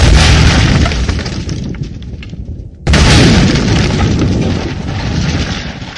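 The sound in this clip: Firecrackers explode at a night fair, a dense, loud, continuous crackle of bursts that dips briefly, then resumes abruptly and keeps going.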